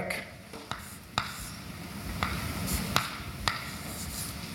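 Writing out mathematics by hand, a faint scratching broken by a few sharp taps, with no talking.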